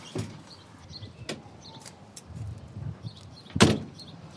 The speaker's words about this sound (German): Fenster zu.